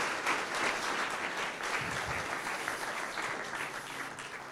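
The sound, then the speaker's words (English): Church audience applauding the worship team on the platform: dense, steady clapping fills the whole stretch and fades slightly toward the end. “Would you give this team on this platform, would you give them a hand clap?”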